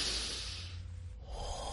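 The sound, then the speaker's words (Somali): Deep breath taken as a calming breathing exercise: soft, airy breath sounds rushing in and out in two long, gentle swells with no talking. “Ma doonaysaa inaad isku dayda inaad neef dheer qaadataan? Haye bilaaba.”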